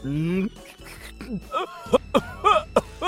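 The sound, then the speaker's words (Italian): A man coughs into a microphone during a radio studio mic check. Several short, harsh bursts follow a brief stretch of voiced sound at the start. “Smetta di tossire.”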